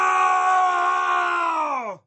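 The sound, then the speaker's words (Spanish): A man's fierce, sustained scream in a dramatized legend of a Guanche islander on El Hierro: one loud, harmonic cry lasting about two seconds that drops sharply in pitch as it breaks off. “La desesperación de ver su libertad perdida impulsó al mimbache a gritar.”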